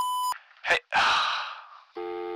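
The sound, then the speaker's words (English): Voicemail beep after the greeting: a short electronic tone, then a breathy gasp and a longer exhale, and another steady electronic tone at the end. “Leave a message after the beep.”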